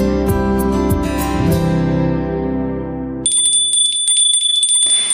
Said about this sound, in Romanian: A sunat clopoțelul, știți ce înseamnă acest lucru, nu?